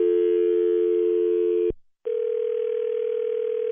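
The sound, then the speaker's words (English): Telephone line tones: a steady, loud dial tone cuts off, falls silent briefly, then a second steady tone at a slightly different pitch rings on until the end, with no voices. “why are you dialing my number back”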